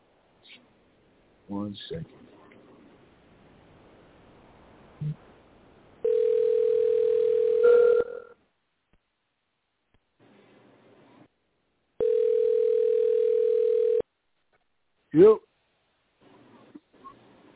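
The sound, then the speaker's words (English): A telephone tone heard while a wrong number is dialed: two steady, mid-pitched tones of about two seconds each, separated by a quiet gap, with short voice-like sounds before, between and after them. “We're sorry. Your call did not go through. I know what's going on. I'm dialing the wrong number.”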